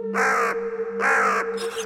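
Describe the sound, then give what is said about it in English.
Harsh, loud crow squawking: a few raspy caws, each about half a second long, separated by short gaps over a steady low hum. “the crow in the middle just kind of turns and starts squawking at us.”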